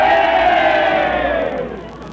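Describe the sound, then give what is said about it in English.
The cheering section of a football crowd yells together in one loud group shout that slides downward in pitch and fades away. “And now, the Meatball cheering section. Yay, Meatball!”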